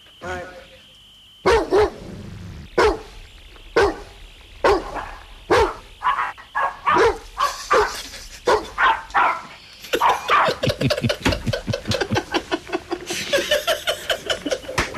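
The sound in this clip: Dogs bark indoors in a living room, first in separate spaced-out woofs, then in a fast, continuous run of sharp barks toward the end, loud and piercing.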